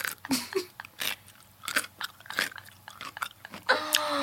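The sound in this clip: Pickles being bitten and chewed: many wet, crisp crunches in an uneven rhythm, loud and close, with short gaps between bites and no talking.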